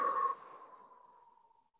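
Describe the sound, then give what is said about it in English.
A slow exhale during a guided breathing exercise, heard as a soft, breathy rush of air. It is strongest at the start and then fades steadily over almost two seconds, with no talking. “So in through your nose for four, the count of four. Hold it gently and then exhale for four.”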